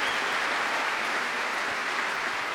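Loud, dense applause from an appreciative audience at a Prom concert in the Royal Albert Hall forms a continuous, even roar of clapping, heard alone without voices.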